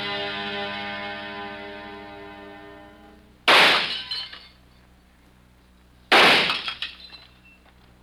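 Glass bottles shattered by gunshots: two loud, sharp crashes a few seconds apart, each breaking into a spray of tinkling shards that dies away, over a steady humming tone.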